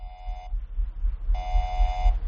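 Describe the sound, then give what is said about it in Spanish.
Emergency alert beeping: two sustained, buzzy electronic tones with strong harmonics, the first about half a second long and the second longer after a short gap, over a low background rumble. “Aviso de emergencia. Acaba de llegar un aviso.”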